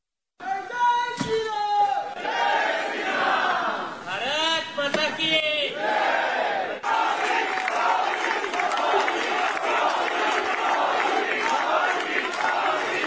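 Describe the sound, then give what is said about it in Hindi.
A large crowd from the Indian community in France chants slogans for Modi and 'Bharat Mata ki Jai', loud rhythmic massed voices over continuous crowd noise throughout. “France में भारतीय बिरादरीअ वॾे तइदाद में गॾु थी ऐं मोदी मोदी ऐं भारत माता की जय जा नारा लॻाया।”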